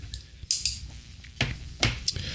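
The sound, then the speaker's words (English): A folding knife with an unusually shaped blade being flipped open gives a few sharp metallic clicks and snaps, spaced irregularly, with faint handling noise between them. “I assume that's because of the blade being so funky. It feels really cool to flip.”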